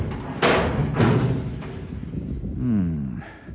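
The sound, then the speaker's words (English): A small door on a water tank being opened by turning its handle clockwise and pulling up: a few heavy metallic thumps, then a softer, drawn-out scraping creak. “Well, this is the only little door up here. It must be this one. Now, let's see. He said to turn the handle clockwise and pull up.”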